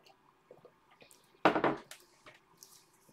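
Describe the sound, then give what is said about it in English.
A quick sip of water, heard as a brief double slurp of under half a second. Faint background noise surrounds it, and no one speaks. “I'm just taking a sip of water.”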